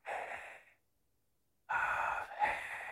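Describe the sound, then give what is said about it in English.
A person draws in one breath and then lets it out in a slow, audible exhale. A short inhale is followed by a silent pause, then a longer, louder airy exhale that swells briefly near its end. “It would be like a breath. Breathe in. Exhale.”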